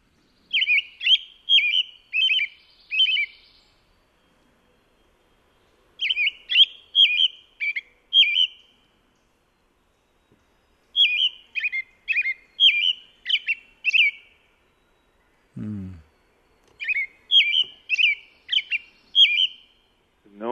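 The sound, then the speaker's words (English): A robin sings low caroled notes in four separate phrases. Each phrase is a quick run of clear, whistled notes, with pauses of a few seconds between them. The song is heard alone, with no voices. “we've got the robin, I believe, is on track 12 of your CD. Should we play that? Yeah, track 12. Here are the nice low caroled notes.”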